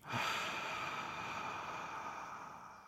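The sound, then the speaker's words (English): A forceful exhale with an abrupt, sharp onset is shown as a faulty breathing technique. Airy, hissing breath noise follows and holds steady for about three seconds, then slowly fades. It is faint and heard alone. “It will sound like this kind of sharp at the start of the exhale. That is no good.”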